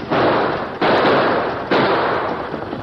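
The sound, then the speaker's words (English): Three loud gunshots ring out in a western shootout, each a sharp crack followed by a long rumbling tail that runs into the next, spaced under a second apart. “Both Purdy and the masked man fired again, exchanging shots, then fired again.”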